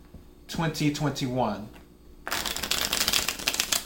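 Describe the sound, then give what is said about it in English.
Tarot cards being shuffled in a dense, rapid papery riffle and rustle that runs steadily to the end, after a brief stretch of a person talking. “But at least we know what the pre-shuffle energy is. I need 8 cards for Virgo.”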